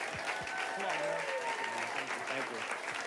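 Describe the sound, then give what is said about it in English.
Applause from a standing audience welcoming a guest to the stage at a gathering: faint, steady clapping with a voice talking over it throughout. “Come on, let's go, give him a hand.”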